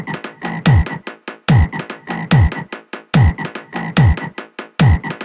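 Frog croaking in a looped, strongly regular rhythm. About six loud cycles of rapid croaks each end in a deep, downward-sweeping tone.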